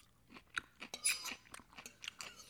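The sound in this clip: Someone chews salad eaten from a bowl. The bites come as many faint, crisp, crunchy sounds in an uneven rhythm, with no talking.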